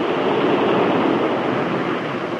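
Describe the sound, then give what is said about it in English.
Steady rushing roar of water as a water intake is opened and shut. A broad, loud hiss holds level for about two seconds, with no voices. “That was one of the water intakes being opened and shut, that's all.”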